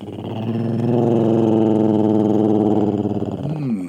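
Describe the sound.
Deep, rough growl attributed to a Rougarou, a werewolf-like creature, held steadily for about four seconds at strong volume with a rumbling, pulsing texture, tailing off with a brief lower snarl at the end.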